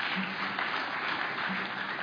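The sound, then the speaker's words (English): Applause from a church audience thanking volunteers of a children's program, a dense, even wash of clapping that stays steady throughout, sounding somewhat muffled. “And if you, yeah, you can clap.”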